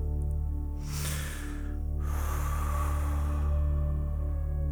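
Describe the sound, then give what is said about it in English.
Quick breath drawn in through the mouth, then short breathy bursts pushed out, as a relaxation exercise; airy rushes of breath sit over a steady tonal background. “Breathe quickly in through your mouth, and then short bursts of breath out.”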